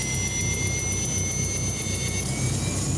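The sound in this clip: Steady roar of an aircraft-type ship's engines as it takes off: a dense, constant low rumble with high whining tones held throughout, with no voices.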